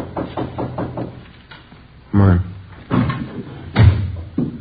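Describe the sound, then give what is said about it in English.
Closet door opening, heard as a few loud wooden clunks and rattles mixed with people talking throughout. “Door's open. Let's have a look. Come on. It's empty. Nothing in the closet.”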